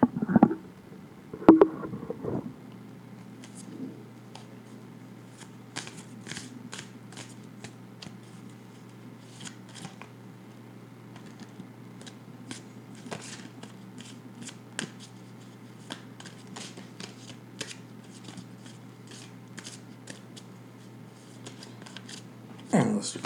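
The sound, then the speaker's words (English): Playing cards being flipped and shuffled during a card game: many faint, sharp snaps and flicks scattered throughout, with voices briefly at the start and end. “I guess we flip cards.”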